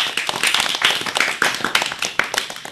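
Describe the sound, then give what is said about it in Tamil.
A school audience claps for students after their speech, a dense, continuous patter of many hands that stays fairly loud and steady throughout, with no talk over it. “அனைவரும் கரவொலி எழுப்பி அவர்களுக்கு நமது வாழ்த்துக்களை தெரிவிப்போம்.”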